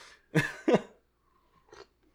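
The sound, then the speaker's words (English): Coughing from choking on saliva: two harsh coughs in quick succession, then a pause and a fainter throaty catch. “I just started choking on my own spit, excuse me.”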